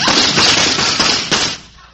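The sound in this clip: Gunshots in a frontier shootout, a few sharp bursts within a dense, harsh, band-limited wash of noise that holds steady and then fades away at the end.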